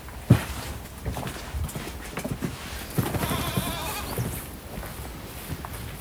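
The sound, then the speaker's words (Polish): Goats bleating on a farm that keeps a herd for cheese-making, a few short bleats rising over a steady rustling, shuffling background, with one sharp knock near the start. “Więc chyba teraz jest czas, żeby pójść do tych kóz.”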